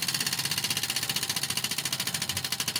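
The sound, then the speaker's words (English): Rapid, steady ticking of a giant prize wheel spinning in a studio. Its clicker strikes the pegs in an even, fast mechanical rhythm, and no voices are heard. “I'm going to get over to the big wheel and spin it.”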